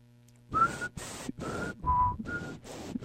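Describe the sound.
A person whistles an imitation of a quiz show thinking tune: six short, breathy whistled notes in an uneven rhythm, one pitched lower than the rest, with a lot of airy hiss around the faint tone.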